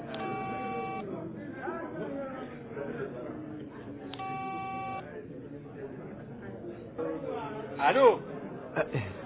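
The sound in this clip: Electronic tones from a coin payphone as a number is dialed: two steady beeps of about a second each, well apart, with murmuring voices underneath and between them.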